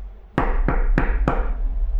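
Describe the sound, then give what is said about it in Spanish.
Knocking on the wooden door of a carpenter's house: four loud, sharp raps at an even, unhurried pace, each with a short ringing decay, and no voices. “Golpearon la puerta hasta que el carpintero abrió.”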